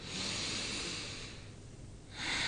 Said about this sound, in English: So we will inhale and exhale through the nose only, right? So we take a deep breath in. And we exhale, right?